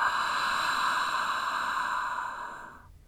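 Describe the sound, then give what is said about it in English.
A long, steady exhale of breath during a guided breathing exercise: an airy, even rush held for nearly three seconds on its own, then fading away at the end. “Take a deep inhale through the nose. Exhale it out.”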